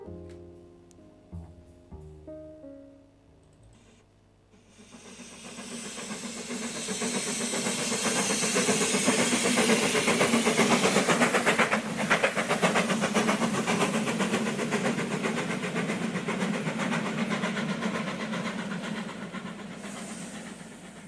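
A moving train rumbles and hisses while passing between carriages. A few quiet tonal clanks and knocks come first, then a loud, steady roar of wheels and engine swells up and holds with a broad hiss.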